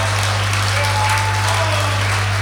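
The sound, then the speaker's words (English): An audience gives a performer a round of applause. The dense clapping stays steady and even for a couple of seconds over a constant low hum. “Come on, folks, give him a big round of applause.”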